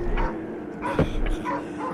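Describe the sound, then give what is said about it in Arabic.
A herding dog, told to go back to its flock, yips and whimpers in a few short, high, whiny cries spread across two seconds. “عد من حيث أتيت، عد يا كلبي، ارحل من هنا. ألم آمرك بأن تبقى عند القطيع؟ إن هذا الكلب قد يدل العدو علينا.”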